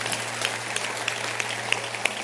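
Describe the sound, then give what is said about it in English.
An audience at a church service claps for a bishop: light, scattered applause with a few sharper claps standing out over a steady low hum. “clap your hands for Bishop Niajedu”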